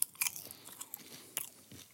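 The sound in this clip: Popcorn being chewed, a quiet, irregular series of crisp crunches and soft mouth sounds, alone with no talk.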